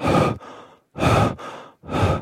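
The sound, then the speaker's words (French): A lynx breathing right into a microphone: three loud, breathy huffs, the first two each trailing into a quieter breath before a brief silence. “Et en fait, le lynx est au bout de mon sac de couchage et respire dans mon micro.”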